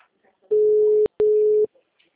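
Telephone tone after a dropped call: two short, steady, mid-pitched beeps, each about half a second long, separated by a brief clicky break.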